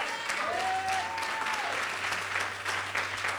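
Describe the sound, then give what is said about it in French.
Audience applause and cheering, a dense, continuous clatter of clapping from start to finish, with a sustained high vocal cheer ringing out over it early on. “Wow ! Wow ! Oui, tu peux acclamer.”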